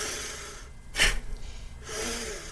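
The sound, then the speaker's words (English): Rapid, forceful breathing exercise with arms raised on the inhale and swung down against the rib cage on the exhale: a few loud, gusty breaths in and out with a sharp burst in the middle. “So if you raise your arms up, inhaling, exhaling, move your arms down and bash the side, each side of your rib cage.”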